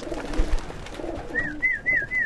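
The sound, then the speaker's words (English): A man whistles in a backyard to call racing pigeons home: four short, swooping whistles repeated in quick succession, following a few soft, low coos from pigeons at the start. “That whistling? It's not a pigeon.”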